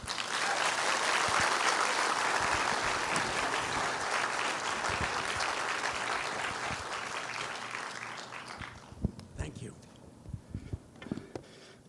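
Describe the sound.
A Crosslands audience gives a loud welcoming applause for speaker Tony Campolo. The sustained clapping gradually fades after about eight seconds into a few scattered claps and knocks.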